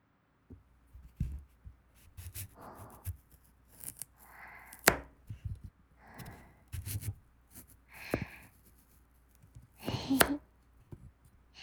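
A knife chops hard vegetables in close, quiet ASMR style: many irregular soft cuts and thuds, faint overall, with occasional breathy sounds between them.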